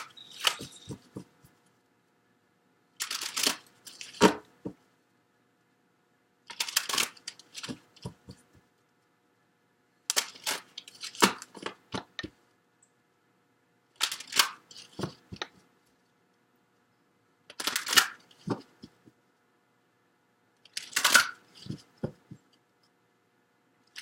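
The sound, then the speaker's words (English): Oracle cards from Life Purpose and Money decks being shuffled and drawn: seven short flurries of crisp clicking and flicking, spaced a few seconds apart with quiet gaps between, and no talking. “We'll get additional cards on it, but I want to get some cards from the Life Purpose deck for you, Cancer, and then from the Money deck.”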